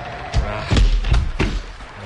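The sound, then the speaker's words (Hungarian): A barn door is slammed shut on sheep during rain. Several heavy, low thuds land in quick succession over a steady wash of background noise. “Fenébe is, ne engedjétek azokat visszafordulni. Azt is be még ezt is. Csukjátok rájuk az ajtót, gyorsan.”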